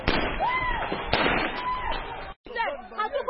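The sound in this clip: Gunshots fired by Congolese police at protesters at a border crossing, a few sharp cracks standing out over loud, continuous crowd noise and voices.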